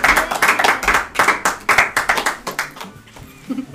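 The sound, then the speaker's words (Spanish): Audience clapping in a steady, even rhythm, loud and crisp, then thinning out and fading over the final second. “yo quiero un gran aplauso para la Tami y para Marcelo”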